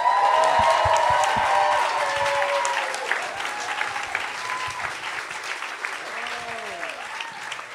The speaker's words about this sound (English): Please welcome Langston Kermit.